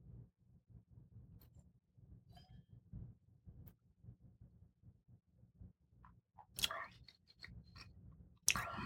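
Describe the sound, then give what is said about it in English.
Tasting a sip of wine: soft, quiet mouth and lip noises, then a couple of short airy slurping bursts near the end, with no talk. “Blackberry on the nose. Some black fruits. Let's give it a taste.”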